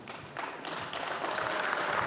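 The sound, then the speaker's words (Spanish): Audience applause at a community plenary meeting: a dense, crackling wash of many hands clapping that starts softer and swells within the first half second, then holds steady with no talk. “humildemente pido que podamos aplaudir”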